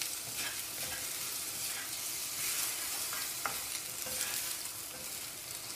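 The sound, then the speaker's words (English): Food stir-fries in a pan, moved with a bamboo spatula: a steady, fairly quiet sizzle runs throughout, broken by several brief scraping strokes at an uneven pace. No one speaks. “Okay, I will not use metal for this. I will use my bamboo spatula.”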